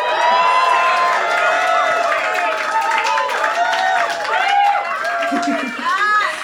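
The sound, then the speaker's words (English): Live audience of about a hundred experimental and electronic music fans cheering at a performance night, a loud, sustained mass of shouts and high whoops from many voices, with clapping mixed in underneath. “We've got at least 100 people crammed in here, experimental and electronic music lovers. Make some noise, audience.”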